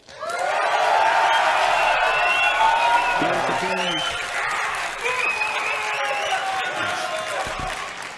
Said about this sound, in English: So make a noise for D if you want D.